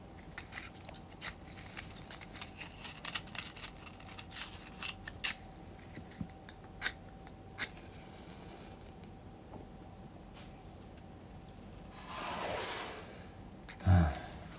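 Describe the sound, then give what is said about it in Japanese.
A match struck from a restaurant's matchbox to light a cigarette: after faint scattered ticks and clicks, a short scratchy rasp flares up, followed by a brief sharp knock, with no voices. “タバコでも吸いますかねあの松屋食堂さんのマッチでえー、っと火をつけようかね”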